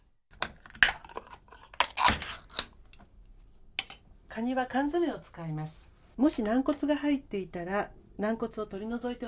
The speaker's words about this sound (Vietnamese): Tiếp đó đánh trứng bằng dụng cụ chuyên dụng hoặc đơn giản là bằng một đôi đũa như vẫn thường làm.